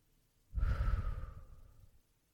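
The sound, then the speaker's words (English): A single deep breath, heard as one long, airy, sigh-like rush of air lasting more than a second that swells quickly and then slowly fades, alone with no talking. “Take a few deep breaths in, hold, and out.”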